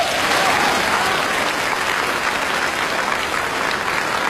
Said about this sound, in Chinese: 我认为啊，这么多的观众 是 这么热烈的掌声，全都是给您鼓的。